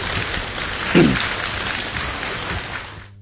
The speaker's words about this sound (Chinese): 从大家的掌声当中看来，对他们这种创新还是比较认可。